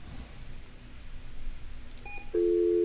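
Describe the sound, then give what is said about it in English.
A telephone call fails to connect: faint electronic beeps over low line hiss give way to a loud, steady tone that cuts in abruptly and holds to the end. “let's see if we get J.C. back with us. In order to complete this call... All right, we will try it again.”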